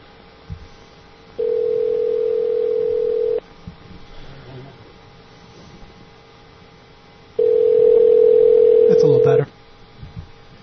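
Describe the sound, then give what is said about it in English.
An internet phone call placed through Skype rings out: two long, steady mid-pitched ring tones, each lasting about two seconds and separated by a few seconds of quiet line noise with faint clicks. “Let me try calling back. This is Skype. Let's try it again.”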